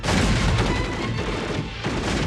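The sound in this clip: A gunfire volley roars in a dense, continuous wall of loud cracks and booms during a battle, with no clear gaps between shots.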